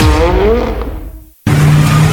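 A car brakes hard with its tires skidding: a loud, harsh screech with a falling tone fades away, then a brief silence, then a steady droning sound.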